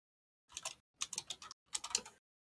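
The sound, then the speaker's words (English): Someone types on a computer keyboard in three short bursts of quick, faint key clicks separated by brief pauses. “Oh, look at him type, guys. He's doing another project for school. Look at him type away.”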